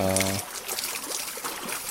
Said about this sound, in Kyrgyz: Ошол суу жетип турат да, чылдырып-чылдырып. Азыр дөңгөлөктө орнотулган 3 челек 1 мүнөттө 20 литр суу сузуп